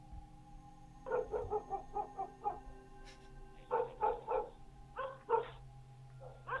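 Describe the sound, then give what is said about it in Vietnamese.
A neighbour's dog barks at night in a run of many sharp, mid-pitched barks grouped in quick bursts with short pauses between, fairly loud over a low steady background hum. “Chó nhà hàng xóm chẳng hiểu vì sao đêm nay cứ sủa nhấm nha nhấm nhẳng suốt cả một đêm.”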